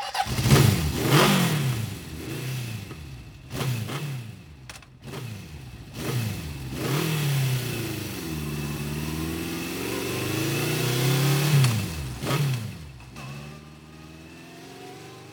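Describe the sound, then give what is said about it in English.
A motorcycle engine revving, with many rising and falling throttle sweeps in quick succession, a longer sustained rev through the middle, then a few sharp blips near the end. The engine note is loud and clear, with no talk. “さあ、エンジンを吹かそうね。Rev the engine.”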